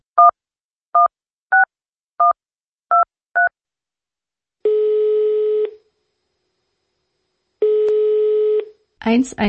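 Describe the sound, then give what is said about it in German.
Six short, evenly paced telephone keypad tones dial a crisis hotline number in Czechia, followed by two long ringback tones as the call connects, with a voice starting at the very end. “(116) 123. Diese Nummer können in Tschechien Menschen wählen, wenn sie Angstzustände oder Depressionen verspüren und sofortige Hilfe brauchen.”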